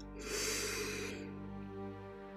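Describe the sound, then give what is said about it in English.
A single deep breath drawn in during a guided breathing exercise, a soft airy rush lasting about a second over a steady low hum, then fading. “Now, take a deep, deep breath in.”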